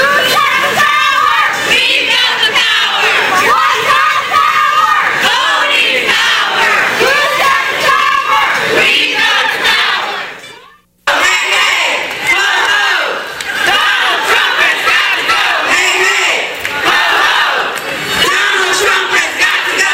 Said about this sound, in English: This is a general audio montage of what happened yesterday. Enjoy, and we'll be back with more specific speeches after a couple of minutes of just the general sounds of the march yesterday.